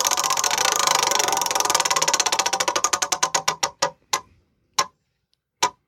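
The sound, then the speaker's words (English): A prize wheel spinning and clicking, its rapid, even clicks gradually slowing into a ticking rhythm and ending with a few widely spaced final clicks as it comes to rest. “Oh, we have to spin the wheel before I announce what your category is.”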